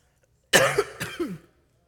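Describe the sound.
A man coughs with a tickle in the back of his throat, giving a couple of harsh, raspy coughs that trail off into a rough throaty rasp, heard alone without talk.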